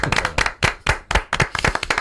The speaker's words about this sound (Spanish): Un aplauso para Paco Roca. Gran Paco Roca. Un aplauso para Paco Roca.